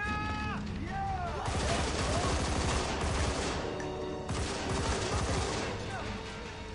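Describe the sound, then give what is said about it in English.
Gunfire from a video game: dense, continuous bursts of rapid shots and blasts that fill nearly the whole stretch, loud and busy, with a brief swept tone at the start. “shot him in the head and he just turns around and shoots back at him.”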